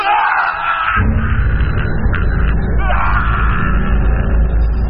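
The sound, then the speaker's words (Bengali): A sudden, terrible scream echoes in a very small tunnel: a loud, drawn-out yelling cry over a dense, rumbling wash of noise that fills the whole stretch. “খুব ছোট একটা সুড়ঙ্গের ভিতর দিয়ে চলেছি, হঠাৎ একটা বিকট চিৎকার।”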